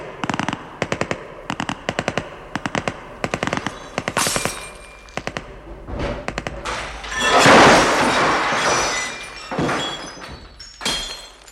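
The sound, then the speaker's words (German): A heavy exchange of gunfire erupts as police surround a villa. Rapid machine-gun bursts and sharp single shots come in loud, uneven clusters, with a longer, noisy swell midway through. “Es kam, wie Sie soeben gehört haben, zu einem heftigen Schusswechsel.”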